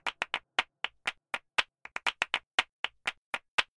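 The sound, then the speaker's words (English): Rhythmic hand claps from a music track, phased so they pan around the ears: many crisp, sharp claps in a quick, uneven syncopated pattern with short silent gaps between them, heard alone. “What you're hearing now is the claps.”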